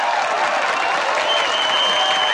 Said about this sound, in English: The audience erupts.